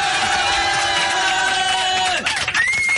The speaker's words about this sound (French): Je crois qu'on peut faire une standing ovation pour les chaussettes de Michael Jackson, ouais, sur Fun Radio.